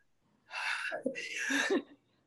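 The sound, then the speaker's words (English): A single human sneeze comes alone: a breathy intake runs straight into a sharp, hissing burst, with no talk around it. “excuse me, I'm about to sneeze”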